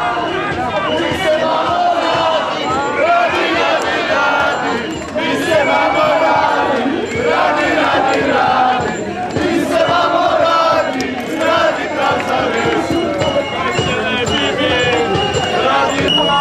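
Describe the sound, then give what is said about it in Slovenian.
Crowd noise at a peaceful demonstration in Ljubljana against Bush and Putin, with police in riot gear: a dense, loud, continuous mass of shouting and chanting voices that fills the whole stretch without a break. “slišimo pa že zvoke z demonstracij proti Bushu in Putinu, ki sta se stala v Ljubljani v soboto”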